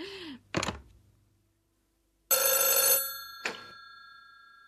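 Telephone ringing: a loud, sustained, metallic bell ring, then a second shorter ring after a brief pause, following some short earlier sounds and silence.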